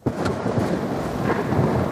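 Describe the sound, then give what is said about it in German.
A storm with thunder and pouring rain: continuous dense rainfall with rolling thunder rumbling beneath it, loud and unbroken throughout. “brüllt ein Sturm im Osten auf. Dunkle Wolken schieben sich vor die Sonne und es beginnt zu schütten.”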